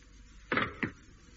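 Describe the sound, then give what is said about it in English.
A spacecraft's main door is eased open to break the vacuum: two short, muffled mechanical clunks, the first slightly longer, over a faint, steady low hum. No one talks. “Just ease the door enough to break the vacuum. Yeah. Let that air, or whatever it is out there, come in as slowly as possible. Right. Main door.”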